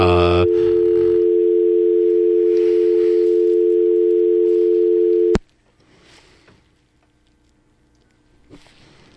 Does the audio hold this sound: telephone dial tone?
yes